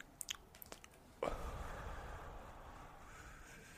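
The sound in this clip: A close breathy inhalation of a cannabis smoke hit: after a few faint clicks, a long, steady rushing draw begins about a third of the way in and continues, gradually softening, to the end.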